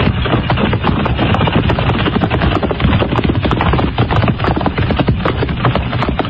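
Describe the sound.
Horses ridden up at a steady pace, their hooves making many irregular, overlapping clip-clopping thuds over a loud, constant rumbling noise.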